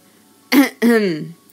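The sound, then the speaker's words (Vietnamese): A man clears his throat in two rough bursts, a short one followed by a longer, drawn-out rasp. The sound is loud and close, with silence on either side. “Hắn hắng giọng một cái, mở miệng nói.”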